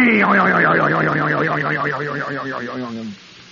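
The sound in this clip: A comic boing stands in for a toaster spring popping loose, a warbling tone that wobbles rapidly in pitch while sagging slightly lower over about three seconds before it cuts off.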